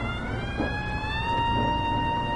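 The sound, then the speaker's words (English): New York City street ambience with a siren: a steady, sustained wailing tone sits over a constant low traffic rumble. “takes in the tall buildings and the sounds of the Big Apple”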